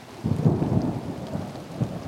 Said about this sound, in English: I just like listening to the rain.